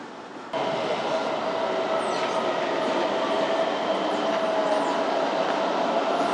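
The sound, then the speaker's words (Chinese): A subway train runs as it arrives at a station: a loud, steady rumble and rattle that starts abruptly after about half a second and holds to the end, with faint high squeals drifting above it. “持单程票的乘客，请您保存好车票，以便出站使用。大宝台站到了。 We are arriving at 大宝台 station.”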